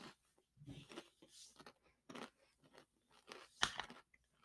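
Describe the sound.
Someone bites into a spicy orange chip and chews it: quiet, uneven bursts of crisp crunching come one after another, with one sharper, louder crunch late on.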